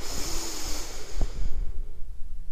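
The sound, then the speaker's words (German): A deep breath drawn in through the nose, an airy, hissing inhale lasting about a second and a half before it fades, heard alone. “Und noch ein letztes Mal durch die Nase tief einatmen”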